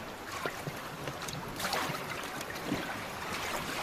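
A rowing boat is pushed into the water and rocks from side to side as oars work it, giving a steady, fairly quiet wash of sloshing and splashing with no distinct single strokes.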